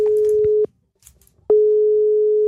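Ringing tone of an outgoing telephone call: a steady single-pitch electronic tone sounds, stops for almost a second of near-silence, then starts again and holds to the end.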